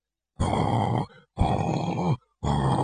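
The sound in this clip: A voice imitates snoring, as men pretending to sleep while hiding would snore: three long, rasping, grunting snores in a steady rhythm, separated by short gaps.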